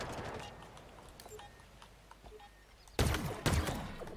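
Video game gunfire aimed at the player: faint scattered shots, then two loud, sharp bursts close together near the end.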